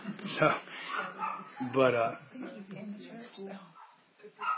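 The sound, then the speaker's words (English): A dog barks, a few short barks mixed with a person talking, muffled and moderately loud. “that's just a dog, guys”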